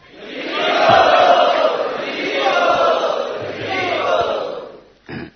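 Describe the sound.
An assembly of Vaishnavas cheers loudly to welcome an arriving guest: a sustained, swelling roar of many voices that holds for several seconds, eases, and ends with a short final burst.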